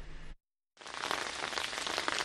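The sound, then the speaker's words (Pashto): Steady rain falls on a mud-brick house in the mountainous Battagram district of Khyber Pakhtunkhwa, a dense, even hiss that cuts out into a short silence and then resumes, continuing without a break. “باران وریږي”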